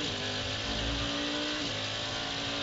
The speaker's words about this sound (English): Cadillac number 31 engine that I'm listening to doesn't sound as clean as it did earlier. Could that be a broken exhaust manifold?